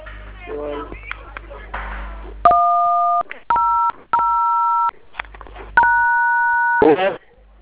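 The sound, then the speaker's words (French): Telephone keypad tones dial a star code: after a stretch of talk, four loud, steady dual-pitch beeps of uneven length sound one after another, separated by short gaps. “Vous composez le code étoile 100 dièse.”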